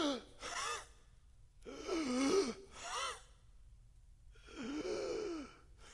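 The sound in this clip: A voice imitates desperate gasping for breath, like someone hanging by nailed hands and pushing up against the nails to breathe. A few strained, breathy gasps come in separate bursts with short silences between them.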